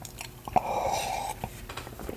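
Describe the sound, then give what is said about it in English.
A sip of tea taken by someone with a raspy throat, heard as a short airy slurp between faint clicks and mouth noises at a low level. “May have to take some sips of my tea here.”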